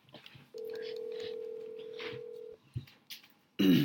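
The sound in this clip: A telephone being dialed on speakerphone: a steady, even dial tone holds for about two seconds, then a click and a brief louder burst of tone follow.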